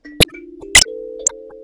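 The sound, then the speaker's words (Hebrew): Sansula, an African instrument with metal tongues: three plucked notes, each with a sharp click at the start and a clear ringing tone, with later notes sounding over the earlier ones as they fade. “הכלי הזה כלי אפריקאי, שיש את הלשונות מתכת האלו.”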